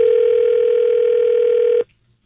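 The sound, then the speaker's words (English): Telephone dial tone as a call is placed, a loud steady tone held for almost two seconds, then cut off into silence before a brief click. “And we placed a phone call.”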